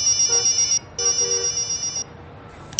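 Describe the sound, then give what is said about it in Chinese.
A mobile phone rings in a busy office corridor, its bright electronic ringtone sounding in two long bursts separated by a short gap, with a third burst just starting at the end. “当高淳走到拐弯处的时候，手机突然响”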